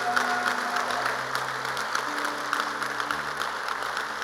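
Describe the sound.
A church audience claps continuously, a dense, even patter of many hands throughout, with sustained low musical tones underneath.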